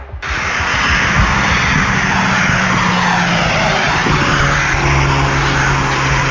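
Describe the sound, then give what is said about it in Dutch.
A Volkswagen Golf speeds away along a ring road, its engine a loud, steady roar with continuous tire and wind noise throughout. “Hun golf is goed te horen op hun razendsnelle vlucht op de randweg richting de N717.”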